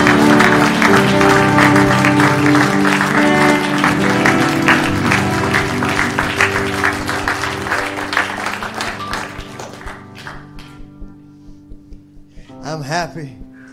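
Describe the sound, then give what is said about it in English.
A church audience claps in praise during a sermon, a dense, loud burst of applause over music that gradually thins and fades. A voice rises briefly at the end. “Come on, give Him another hand clap of praise.”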